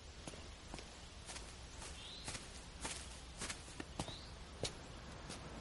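A man's footsteps as he walks out of a house up to another person: a series of soft, separate steps, faint against steady background hiss.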